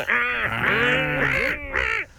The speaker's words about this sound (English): A seagull. Oh, yeah, that was a bit of a gull, wasn't it?